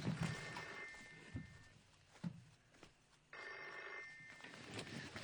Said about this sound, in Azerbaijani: Telefona gərək cavab verəm.